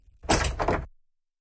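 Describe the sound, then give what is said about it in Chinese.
A main door closes with two quick, solid knocks in under a second, a heavy bump followed closely by a second one, then silence. “马一山听大门关上了”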